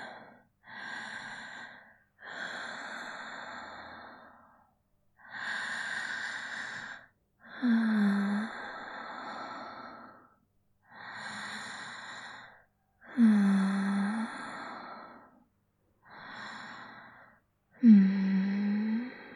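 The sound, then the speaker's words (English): Slow, deep breathing by a person, about eight separate breath sounds with short pauses between them. Several exhales carry a soft, low voiced sigh, and no one speaks. “Can you breathe with me?”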